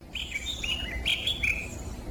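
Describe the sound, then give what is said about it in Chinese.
Birds chirp among green, shady trees in a reforested riverside area of Youyu. Bright, high chirps and short trills sound one after another over a low background rumble. “鸟鸣声清脆悦耳”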